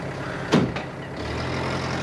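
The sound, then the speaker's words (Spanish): A bus arrives and stops in a clearing ringed by tall bare-branched trees: a steady low engine rumble with a short, sharp hiss burst near the start, then a quieter idle. “El autobús llega a un paraje rodeado por altos árboles de ramas desnudas. Se detiene y Latif desciende.”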